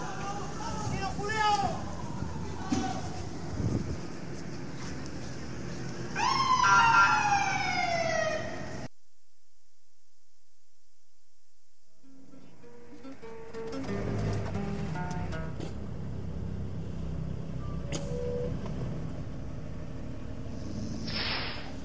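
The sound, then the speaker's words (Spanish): Police sirens wail as water cannon trucks approach protesters at a suppressed march in Concepción. A clear swooping siren tone rises and falls partway through amid street noise, and a voice talks over the scene. “Acá viene otro guanaco más, ya son dos guanacos, y un piquete de los pacos que va ahora a atacar a la gente, a los manifestantes.”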